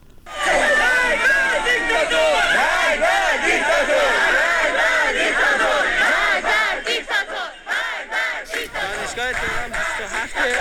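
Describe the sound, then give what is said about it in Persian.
A protest crowd at a university gathering in Tehran shouts and chants loudly, with many voices overlapping. The sound breaks into rhythmic, staggered bursts of chanting toward the end. “این البته این صدایی که شنیدی مربوط به دانشگاه تهران هست، تجمع روز دوشنبه.”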